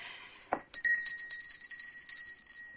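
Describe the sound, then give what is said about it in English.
A small hand bell is rung at a dinner table to summon someone. A soft knock comes first, then bright metallic ringing with a few quick shakes and sustained high partials that shimmer and slowly fade. “Why don't you ring the bell”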